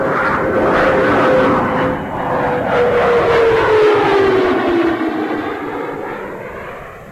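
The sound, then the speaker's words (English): Space Shuttle Discovery rolls out on runway 22 at Edwards Air Force Base after landing: a loud, steady roar with a clear whining tone that slowly falls in pitch throughout. “Discovery rolling out on runway 22 at Edwards Air Force Base.”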